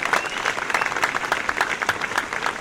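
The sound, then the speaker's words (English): Studio audience applause on a cooking show, fairly quiet but steady, dense clapping that sustains evenly throughout with no voices over it. “You got to watch that applause sign when it comes on. You got to keep up now.”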